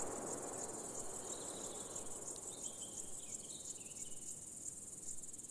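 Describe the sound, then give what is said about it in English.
Crickets chirp in a dense, steady, high-pitched chorus that runs without a break, with no voices present. “These insects are impressive jumpers and flyers.”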